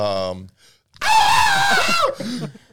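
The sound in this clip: A man imitates his scream of pain from having a finger crushed by a thick door slamming shut. The loud, strained cry lasts about a second, with short vocal sounds just before and after it.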